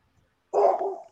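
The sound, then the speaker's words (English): A dog barking: a single short, fairly faint bark after a moment of near silence, with no voices. “Whose dog is that?”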